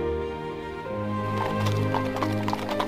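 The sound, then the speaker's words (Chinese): A doctor's horse-drawn carriage arrives, with steady clip-clop hoofbeats on a hard surface growing more prominent as the horse approaches. “不久，又有一辆医生的马车来到。”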